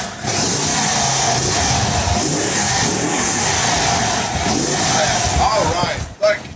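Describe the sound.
A 1925 Indian Chief Sport Chief motorcycle engine revs loudly in a rough, steady roar for several seconds, then cuts off sharply near the end.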